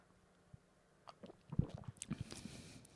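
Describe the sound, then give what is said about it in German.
A faint sip of strawberry-flavoured tea, heard as soft slurping and a scatter of small wet mouth clicks that cluster in the second half. “Aber das ist ein sehr, sehr angenehmer Geruch und ja, gegen den kann man wirklich nichts sagen. Ich nehme einen Schluck.”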